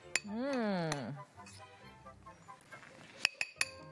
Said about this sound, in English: This is our quinoa salad. This is the dressing. And you just want to mix it until it's evenly mixed and stirred up.